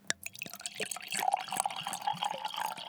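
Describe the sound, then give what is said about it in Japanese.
Water pouring from a 720 ml sake bottle: a small splash at the start gives way to a steady, faint glugging flow with a bubbling, pulsing rhythm. “この音、実は日本酒の4号瓶でお水を注いだ音なんです。”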